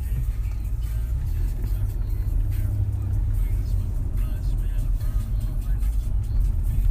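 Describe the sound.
A car driving on the street gives a steady, loud low rumble of engine and road noise that holds without break for the whole stretch, with no distinct passing vehicles.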